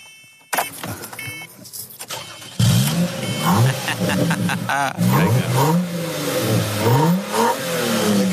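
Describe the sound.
A car engine starts and then revs several times. A brief mechanical whir comes first, then the engine catches loudly and the revs swing repeatedly up and down in pitch, loud throughout.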